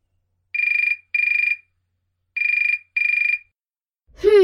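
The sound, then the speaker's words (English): A mobile phone rings with a bright electronic trilling tone in two pairs of short bursts separated by a pause, loud and alone, before a voice begins at the very end. “Lucy's mobile phone is ringing.”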